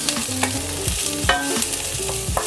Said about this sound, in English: low to medium heat. I'm sweating the garlic and onions. I'm not trying to roast them.